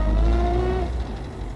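A car drives along with a steady, low engine rumble and a faint tonal whine, passengers aboard being driven home. The sound is continuous, with no talk, and eases slightly toward the end.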